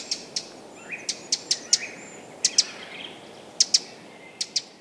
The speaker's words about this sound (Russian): Немножко похожа позывка у крапивника чуть-чуть. Вот можно тоже послушать.